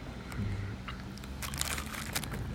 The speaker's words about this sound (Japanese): 心地よい噛み心地っていう表現が正しいのかわからないですけどこのサクサクとしたこの歯応え結構いいですね